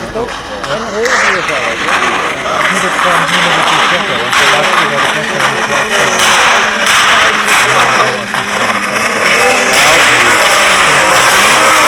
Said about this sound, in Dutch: Dit is andere auto.